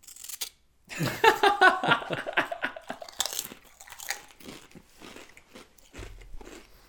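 Crunching on burger-flavoured wavy potato chips, a run of many crisp bites and crackly chews, loudest at first and then tapering into softer, scattered crunches.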